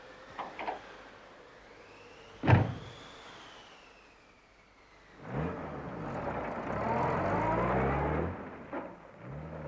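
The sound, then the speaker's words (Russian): A car moves off in a blizzard. A few soft clicks and one sharp thud come first, then a quiet pause. An engine starts and grows louder, then runs steadily. “Машина тронулась.”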